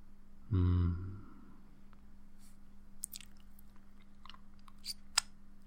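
Someone chewing and eating food: faint, scattered wet clicks and crunches over a low steady hum, opened by a brief louder low-pitched sound.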